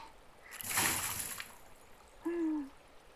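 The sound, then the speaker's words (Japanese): Water is tipped out of a container onto riverside stones, giving a quiet splash and spatter that lasts about a second before fading. “こすり終わったら河原の石に水捨てて、”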